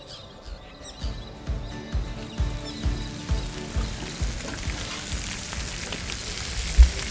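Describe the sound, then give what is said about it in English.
Bacon and eggs sizzle on an outdoor barbecue hotplate at an early-morning rally breakfast in Bathurst, rural New South Wales. A crackling, spitting hiss runs throughout, punctuated by many soft pops and knocks. “what better way to start a rally than with bacon and eggs on the barbie?”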